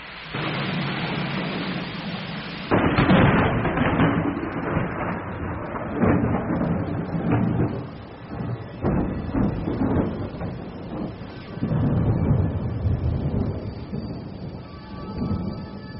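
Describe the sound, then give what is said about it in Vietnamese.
Thunder, wind and pouring rain in a mountain forest merge into a dense, muffled wash of noise, marked by a few heavier surges that swell and fade. “Nằm nghe sấm sét gió mưa gào thét ngoài núi rừng”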